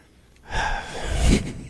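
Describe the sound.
A big gasping breath drawn in: a loud, breathy rush of air that swells, eases slightly, then surges stronger again before cutting off.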